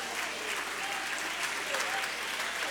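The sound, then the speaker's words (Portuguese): Church audience applauding, a steady, dense wash of clapping that holds at an even level for the whole stretch without breaks. “pode aplaudir o nome do Senhor, se assentem,”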